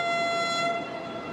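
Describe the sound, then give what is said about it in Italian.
A train's horn sounds a sustained, even tone rich in harmonics as an Intercity Night train departs from a station platform, holding steady without voices. “Il treno Intercity Night 765 di Trenitalia per Lecce delle ore 19.50 è in partenza dal binario 20.”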